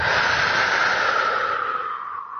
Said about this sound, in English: So take a deep breath in and breathe out.